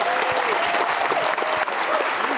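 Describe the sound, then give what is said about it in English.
Audience applause honoring a coach: a dense, steady clatter of clapping that holds at an even level for the whole clip. “How about some applause for that?”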